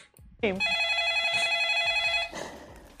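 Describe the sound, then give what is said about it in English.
A telephone rings in the background with one sustained electronic ring of about two seconds, a steady bright harmonic tone at moderate loudness, followed by quieter noise. “Oh, that was a phone in the background.”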